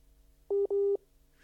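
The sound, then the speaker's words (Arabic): A telephone busy tone sounds after a call is cut off: two clean, mid-pitched beeps, the first short and the second longer, with a tiny gap between them, over faint line hum and otherwise quiet. “الظاهر قطع الاتصال مع المستمعة عذراء الموسوي من العراق”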